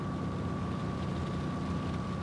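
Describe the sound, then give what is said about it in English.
An aircraft flying over a large body of water gives a faint, steady engine drone with an even, unchanging level and a constant mid-pitched tone running throughout. “An aircraft flies over a large body of water.”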